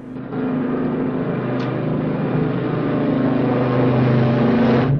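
Steady engine drone of a seaplane descending to land on water beside a ship, a continuous broad roar that holds level and firm throughout.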